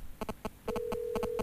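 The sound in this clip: A telephone line tone sounds on a radio phone-in call: short, evenly spaced buzzing pulses, some in pairs, with a steady low tone joining partway through and continuing to the end.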